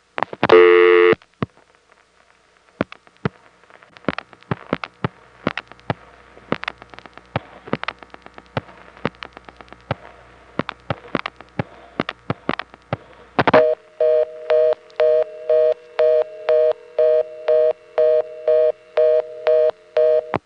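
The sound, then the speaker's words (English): Telephone switch reorder tone from a Pentaconta exchange after dialing from a payphone. A steady tone and a long stretch of sharp clicks give way to a loud, rapid, evenly repeating on-off buzz that continues to the end. “One of the things we tried dialing, and it's hard for me to decode it listening to the tape, resulted in the switch connecting us to a local reorder like this.”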